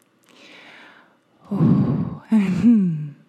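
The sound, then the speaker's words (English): Slow, deep breaths are taken to get centered: a faint, airy exhale, then two louder, fuller breaths, the last ending in a soft voiced sigh. “So let's start with a few breaths to just get centered.”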